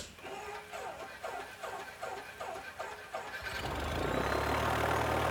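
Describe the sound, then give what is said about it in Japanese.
A propeller aircraft engine starting: several rhythmic cranking pulses, then the engine catches and settles into a loud, steady, continuous roar that lasts to the end. “プロペラ始動。”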